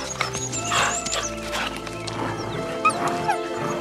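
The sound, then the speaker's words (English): Five wolf cubs tug at a bone in their mouths, growling and whining continuously, with a few sharp, high yips near the end. “No less than 5 wolf cubs take hold of the bone in their mouths, and a tug of war begins.”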